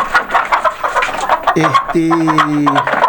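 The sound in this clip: Chickens cluck in a henhouse, a busy jumble of clucks and squawks with one drawn-out, wavering squawk in the middle.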